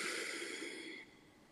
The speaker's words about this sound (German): atme tief ein in dein Zentrum und vollständig aus.